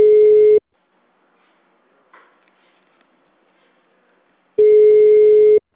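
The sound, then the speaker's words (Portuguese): A telephone line tone sounds while a call is placed: two steady electronic beeps, separated by a long near-silent gap with one faint click. “Só um minutinho que eu tô ligando aqui, rapidinho.”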